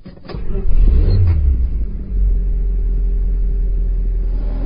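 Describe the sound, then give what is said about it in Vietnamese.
A car door pulls shut and a car engine starts: a few short knocks over a loud, deep rumble that dips once midway, then settles into a steady low engine hum. “rồi kéo cửa xe khởi động ô tô.”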